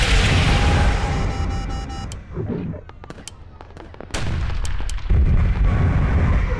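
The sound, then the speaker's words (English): An incoming missile strikes a ship during a sci-fi space battle: loud, sustained rumbling roar, then a run of sharp cracking blasts, before the heavy roar surges back twice. “Missile inbound!”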